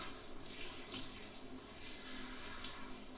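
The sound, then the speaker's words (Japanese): Faint, steady hiss of hot running water pouring over hair as it is rinsed during a hair wash. The flow stays even and continuous throughout, with no talk. “お湯は熱くないですか。”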